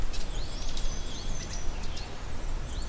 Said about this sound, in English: We also have a sapsucker,